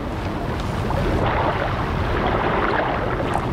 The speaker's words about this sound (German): Es plätschert der Bach. Es rauschen Strom und Wasserfall.